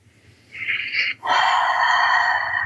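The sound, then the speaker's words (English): A held breath is let go during a guided breathing exercise: a short airy breath sound, a brief gap, then a long, steady, loud exhale that carries on to the end. “And when you are ready, releasing the breath whenever you're ready.”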